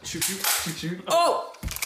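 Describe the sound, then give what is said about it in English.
An airsoft gun firing with a sharp, snappy pop, heard amid people talking and a loud exclamation. “Did it actually shoot it? They're airsoft guns.”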